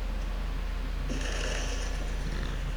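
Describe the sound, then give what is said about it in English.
A deep burp, low and guttural, with a buzzy, rumbling texture held steadily through the whole stretch. “Excuse me. Ooh. That was a deep burp.”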